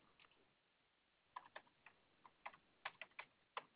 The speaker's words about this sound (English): I'm getting this all typed up for you, okay?